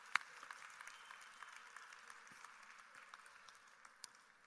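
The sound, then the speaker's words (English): An audience applauding, with faint, scattered clapping that stays low and steady throughout. “Let's give them a good hand.”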